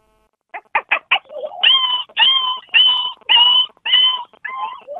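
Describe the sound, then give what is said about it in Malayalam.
A human voice imitating a dog yelping after being struck by a stone: four short, sharp yips, then six longer, high, whining yelps in a steady rhythm, with no other talk. “ഇനി പട്ടിക്ക് കല്ലേറ് കൊള്ളും ഒരു sound ഉണ്ടല്ലോ. ആ അത് ചെയ്യാം.”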